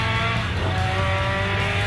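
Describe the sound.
Tyres skidding and squealing as a car drifts around a lap, a continuous strained squeal layered over a steady, roaring engine for the whole two seconds.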